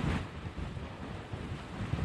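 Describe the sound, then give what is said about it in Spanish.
A strong gust of wind buffets the microphone during storm coverage in Houston, producing a low, rumbling roar that surges unevenly in short pulses over about two seconds. No voices are heard. “Sorry about that. Wow, that was a heck of a gust.”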